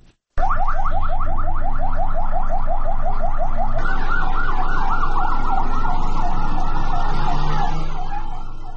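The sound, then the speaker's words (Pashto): Ambulance sirens sound loud and continuous as the vehicles head to a central Shia mosque in Kandahar during Friday prayers. A rapid warbling pattern switches partway through to a rougher, overlapping wail that holds to the end. “نن د جمعې د لمانځه پر مهال په کندهار کې امبولانسونه د شیوو د مرکزی جامع جماعت په لور روان شول.”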